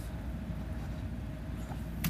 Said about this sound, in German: ich äh, bin am Autofahren, kann hier nicht groß was machen jetzt